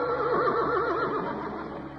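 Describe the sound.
Horse Trigger neighing in a Roy Rogers radio drama: a long, loud whinny with a rapidly trembling, wavering pitch that holds for over a second before trailing off.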